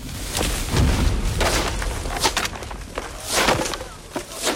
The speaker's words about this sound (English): Rourke presses a detonator. The bridge explodes and collapses behind the trucks.